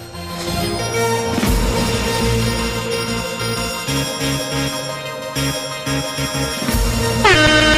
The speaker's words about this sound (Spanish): Se me han colado bocinas.